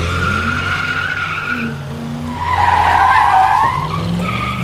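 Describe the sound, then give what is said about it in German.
Car tires spinning and squealing under hard acceleration at a traffic light, a continuous loud, high screech over engine roar, growing louder midway before easing slightly. “Ihr könnt also aufhören, bei der Ampel so viel Gas zu geben, dass die Reifen durchdrehen.”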